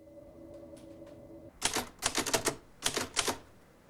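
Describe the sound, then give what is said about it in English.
Typewriter keys clack at a desk in a hotel room, with a fan beside the machine. A faint steady hum comes first, then many sharp, quiet keystrokes fall in two quick bursts. “Barton types at his desk, a fan next to the typewriter.”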